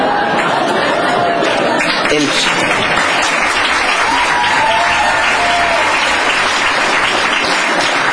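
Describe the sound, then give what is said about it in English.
Loud crowd applause at a public meeting about a school superintendent, a dense, unbroken roar of clapping with crowd chatter mixed in, sustained at a high, even level throughout. “you guys were applauding the failure of my school right there.”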